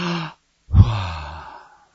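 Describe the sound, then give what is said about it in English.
A voice imitates a dying person's last breath: a short breathy exhale, a brief pause, then a longer rasping sigh that slowly fades out. “Likewise, at the end of a life, generally when people breathe their last, it sounds something like,”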